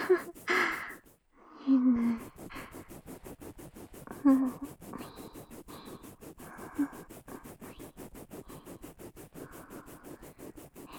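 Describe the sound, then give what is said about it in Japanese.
Many rapid, rhythmic scratching strokes come from a disposable toothbrush brushing teeth, a steady, fairly faint bristly rasp that continues throughout with a few louder breathy moments. “痛くない？歯ブラシも使い捨てのやつだからね。”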